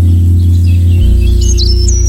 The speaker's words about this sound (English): Pat the Arborist, that the bird that you can hear in this tune from the greenhouse is a blackbird